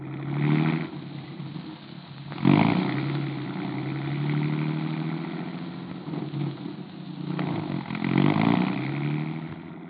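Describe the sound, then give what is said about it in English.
A car engine drones steadily as the vehicle is driven, a low continuous hum that swells louder a few times and then eases back. “I think we'd better drive over. Okay, if you want to drive over, we will.”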